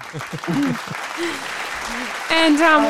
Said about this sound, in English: I'll give April a round of applause.